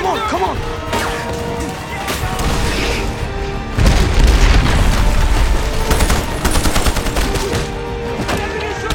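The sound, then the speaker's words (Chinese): Gunfire in a film scene of rebels storming Freetown and shooting at civilians: dense, chaotic bursts of shots and heavy booms, loud throughout, with voices mixed into the din. “哪知道叛军竟然打进了首都城市弗里敦，疯狂射击民众。”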